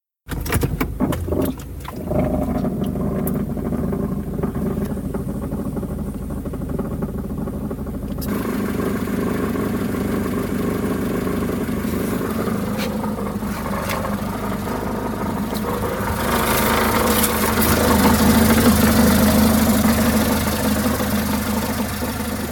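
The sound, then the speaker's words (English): Automatic transmission pump fluctuating while in park or neutral, heard as a continuous idling engine drone with a wavering mechanical undertone that grows slightly louder near the end. “This is because the pump still goes about its function even when the transmission is at rest. This is how the fluctuating sounds when the automatic transmission is either in park or neutral. Let's listen.”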